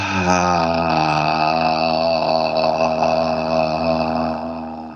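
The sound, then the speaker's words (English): Vocal toning on the out-breath: a single low, hummed voice tone held at a steady pitch for about five seconds. It is loud and even, with a slight waver, and tapers off at the end. “Breathe in. And tone as you breathe out.”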